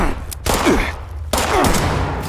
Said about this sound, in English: It's a good thing I can absorb a number of bullets.